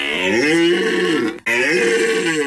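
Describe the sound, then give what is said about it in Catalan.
A red deer stag bellows during the autumn rut in the Pyrenees. Two long, deep, rasping roars with rich harmonics follow each other, separated by a short break, loud and without other sounds. “És la brama del cèrvol.”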